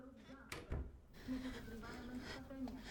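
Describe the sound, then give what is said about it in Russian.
A closet door is quietly opened, giving a soft click and a short muffled knock early on, with a faint low voice afterward. “Она тихо открывает дверь в чулан и прячется внутри.”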